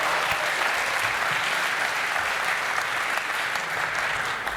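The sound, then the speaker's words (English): Steady audience applause greets the first lightning talk of the day, a dense, continuous patter of clapping that stays at an even, fairly loud level throughout, with no voices rising above it. “Give him a round of applause for the first Lightning Talk of the day.”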